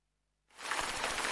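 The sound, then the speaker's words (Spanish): Rain starts abruptly after about half a second of silence, then settles into an even hiss of falling drops that stays fairly faint to the end. No voices are heard. “La lluvia.”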